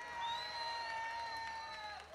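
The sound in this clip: Audience applause and cheering for a live salsa band at a concert, a steady, dense wash of crowd noise that holds at an even level throughout, with some high, sustained tones over it.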